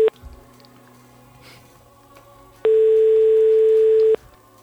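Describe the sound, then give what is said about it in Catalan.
A telephone line tone while a call is being placed: a brief tone blip at the start, a low hum, then a loud, steady, unbroken tone lasting about one and a half seconds. “Anem a trucar a l'Adrià.”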